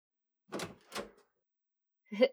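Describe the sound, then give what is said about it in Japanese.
A door is opened with three short, dull clunks and clicks. The first two come close together, and the third follows after a pause. All are faint and heard alone. “はーい。今開けるから、ちょっと待ってて。”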